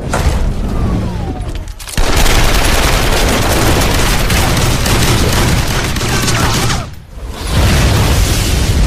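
Loud gunfire sound effect of sustained, rapid automatic bursts, a dense continuous rattle interrupted by two brief breaks before the firing resumes.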